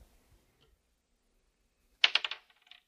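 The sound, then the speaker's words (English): A die rolled onto a table during a card game: after near silence, a quick clatter of several hard clicks that fades, followed by a faint final tick. “I will roll a die and discard that many cards from my hand.”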